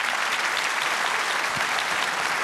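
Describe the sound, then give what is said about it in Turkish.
Audience applause for a women's choir at a concert, dense continuous clapping from many hands at an even level throughout. “Büyük bir alkış.”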